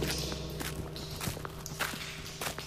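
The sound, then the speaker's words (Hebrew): Soft footsteps walk through a tunnel: several quiet, evenly spaced steps over a steady low hum, with no voices. “כבר יותר משעה שאנו צועדים כאן במנהרה.”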